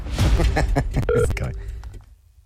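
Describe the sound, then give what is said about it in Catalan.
A telephone number is dialed with a short run of clear keypad beeps that follow a stretch of talk, the tones steady and mid-pitched before the sound trails off into quiet. “Anem a trucar al telèfon del Gerard, avui.”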